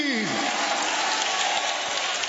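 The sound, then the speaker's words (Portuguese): A church audience applauds with dense, rain-like clapping that holds steady and loud throughout, while a voice briefly speaks over it at the start. “Pode aplaudir ao Senhor. Pode dar glória a Deus aí.”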